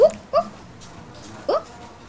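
A dog indoors whimpering and yipping, giving three short, high-pitched whining yelps, two in quick succession and a third after a pause of about a second, with faint background noise between them.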